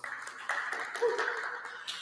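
A church audience applauds to welcome a guest, a dense, steady patter of many hands clapping, fairly soft and continuous throughout.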